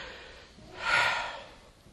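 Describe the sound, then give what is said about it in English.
A single deep breath, a soft breathy rush that swells to a peak and then fades away over about a second, with no talking. “I just want to step back and take a deep breath”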